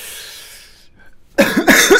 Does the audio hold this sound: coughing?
yes